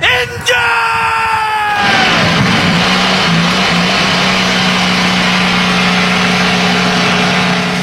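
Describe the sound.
IndyCar race car engines fire up at the start of a Grand Prix. A loud yelled voice comes first, then a dense, continuous engine roar with a steady low drone that holds for several seconds.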